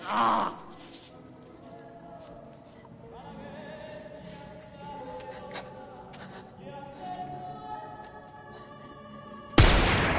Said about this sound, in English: Private investigator shoots a hole through the partition wall.